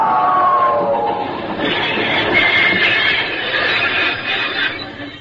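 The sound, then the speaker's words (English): A locomotive runs on rails with a steady, loud clattering rumble that holds throughout, with faint high squealing tones above it. “Would that be a locomotive you're driving? It is, sure enough.”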